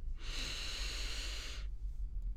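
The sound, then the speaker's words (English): A single slow inhale during a guided breathing exercise, a steady, airy hiss lasting about a second and a half before falling silent. “trying to focus our full attention on the sensation of the breath. Breathing in”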